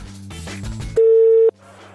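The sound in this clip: A single loud, steady telephone tone sounds while dialing a football club's line. It is one flat beep lasting about half a second, set against a low murmuring background that carries on before and after it.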